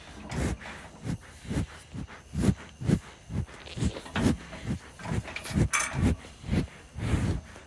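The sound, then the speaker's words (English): Cows drink water and breathe heavily in the heat before bedtime. Breathy huffs and wet slurps come in a regular rhythm about every half second, many in a row, with no voices. “this is the sound of cows getting ready for bed.”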